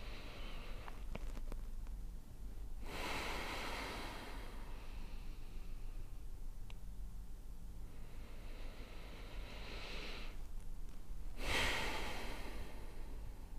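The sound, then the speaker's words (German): Deep breathing in and out during a guided relaxation exercise: a few slow, drawn-out airy rushes of breath with no talk, over a steady low hum. “Dann atme doch einfach nochmal zwei, dreimal tief ein und aus. Nochmal tief einatmen.”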